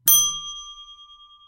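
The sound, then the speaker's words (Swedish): A single bright ding from a bell sound effect: a sharp strike followed by a clear ringing tone that slowly decays with a gentle pulsing shimmer over about a second and a half, heard alone. “Sen, sen måste du väl plinga lite va?”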